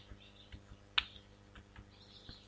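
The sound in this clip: A single sharp click of the Enter key on a computer keyboard stands out among a few fainter, scattered key taps, all quiet.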